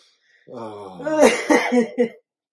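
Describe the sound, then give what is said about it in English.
A tickly cough from a person whose throat is irritated after tea went down the wrong way: a short, voiced throat-clearing fit with a few rough bursts, heard on its own. “And ever since I had this tickly cough.”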